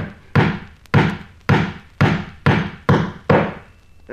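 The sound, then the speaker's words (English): An amateur carpenter hammers nails, producing about eight heavy, evenly spaced strikes, each a loud thud with a brief ringing decay. “Excuse me should I most inadvertently hit the thumb now and then. I'm only an amateur carpenter. But even as I nail, I can see to shoot very well.”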